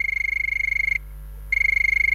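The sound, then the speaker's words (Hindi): A telephone rings with a buzzing, pulsed electronic tone: two rings separated by a brief silent pause, steady and fairly loud, with no voices. “उठी phone की घंटी, देखते हैं किस सखी का है ये पहला कॉल।”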